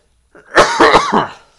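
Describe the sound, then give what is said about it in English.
Coughing: a short, harsh burst of a few rough coughs in quick succession, loud and alone. “I've had enough of you coughing.”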